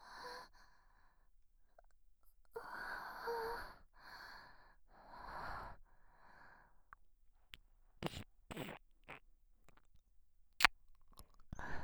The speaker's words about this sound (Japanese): 私と一緒にお腹いっぱいになるまでお菓子食べよう。